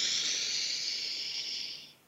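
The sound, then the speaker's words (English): A deep breath drawn in through the nose makes a steady, airy hiss that lasts about two seconds and fades at the end, with no talk. “let's take a deep breath together, in through the nose,”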